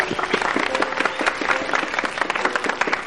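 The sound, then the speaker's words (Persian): Students in a university class applaud in honour of their professor, a busy, crackling spread of many hands clapping at once, fairly loud and continuous, with a faint crowd murmur mixed in. “بچه ها به افتخار استادی دست بزن به افتخار استاد”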